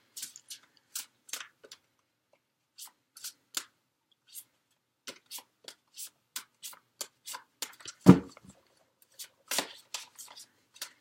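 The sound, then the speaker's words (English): Cards are shuffled and drawn during an astrology card reading, making many short, crisp flicks and riffles in irregular clusters separated by brief pauses. One louder slap of a card stands out near the end. “So let me go ahead and get the cards drawn for you”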